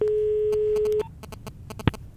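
A telephone call being dialed, with a steady dial tone for about a second followed by a rapid run of short, evenly spaced beeps as the number is entered.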